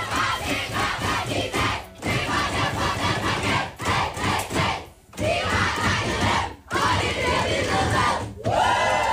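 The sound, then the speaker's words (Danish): Loud, sustained cheering, chanting and whooping from the Danish women's national football team in their dressing room after a win over Serbia. The many voices keep going throughout, with a few brief dips between bursts. “Det er lyden fra omklædningsrummet hos de danske fodboldskvinder i går.”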